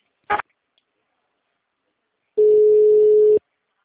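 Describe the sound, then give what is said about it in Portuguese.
Call transfer tone on a telephone line: a brief click, a pause, then one steady, mid-pitched tone that holds for about a second before cutting off. “Estou transferindo a sua ligação agora.”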